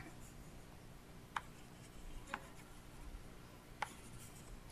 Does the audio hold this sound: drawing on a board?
yes